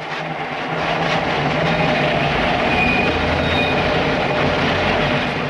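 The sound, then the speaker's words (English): A moving trolley train rumbles on with a continuous low rolling roar. Faint thin high tones like wheel squeal sit above the steady, unbroken noise. “Yuri hops onto the moving train and takes a seat behind her.”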